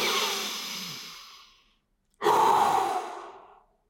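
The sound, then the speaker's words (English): Deliberate loud breathing: two long, forceful breaths, each rushing in loudly and then fading out over about a second and a half, with a short silence between them and no talk. “If you purposely breathe loudly, it just feels so good. One more time.”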